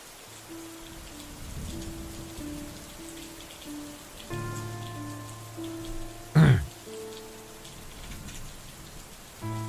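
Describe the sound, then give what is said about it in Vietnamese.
Heavy rain pours in a continuous hiss with soft, sustained music tones over it; no one speaks. “Khi cơn mưa đã bắt đầu trở nên nặng hạt, tôi nắm lấy tay Minh”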